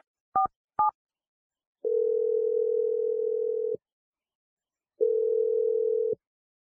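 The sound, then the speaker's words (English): Telephone tones as a number is dialed: two short keypad beeps, then two long steady tones of about two seconds each separated by a pause, with no voices. “All right, I'm going to dial her number now.”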